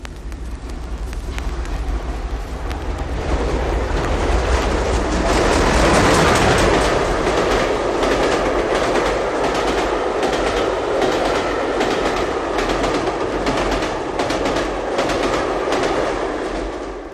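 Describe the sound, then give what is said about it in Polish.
A train running on rails: a continuous loud rumbling roar threaded with rapid, rhythmic clickety-clack, swelling slightly near the middle and carrying on steadily for the whole stretch, with no talking. “Trochę tu orkiestrowej muzyki, ale wszystko zaczyna się od pociągów.”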